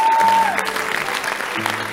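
A church audience claps during a sermon, a dense and steady wash of applause that lasts about two seconds.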